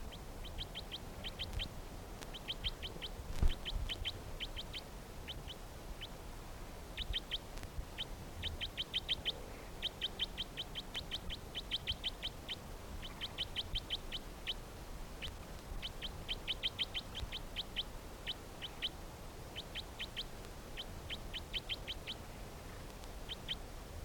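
A bird calling in quick bursts of short, high chirps, repeated steadily throughout, fairly faint over a constant hiss and low rumble.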